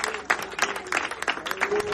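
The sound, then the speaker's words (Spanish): A church audience claps their hands in praise, sharp claps falling in a steady, even rhythm with a sustained background tone beneath them. “Denle fuertes palmas al Señor en esta hora.”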